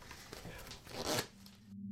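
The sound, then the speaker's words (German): Quiet riffling and rustling of a pack of playing cards being shuffled during a card trick: a soft, brief papery burst swells and then gives way to a low steady hum. “Dazu habe ich hier ein Päckchen Spielkarten. Und ich mache es mal auf und wenn Sie bitte das Spiel jetzt mischen würden.”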